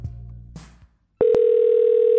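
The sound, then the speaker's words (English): A phone ringtone on a call begins after a brief silence as a loud, steady, buzzy electronic tone at one pitch, with a short click just after it starts. “I love that ringtone.”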